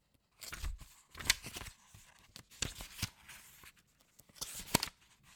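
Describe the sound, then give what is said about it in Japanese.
Dry paper rustling as the pages of a worn book with a frayed spine are turned. A few crisp flips and crinkles come in separate bursts, with no voices. “何度も読み返されているのか、背のあたりがすり減っている。片倉は本をめくった。”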